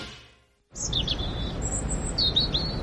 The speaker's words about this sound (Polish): Ptaszki ćwierkają, że idzie wiosna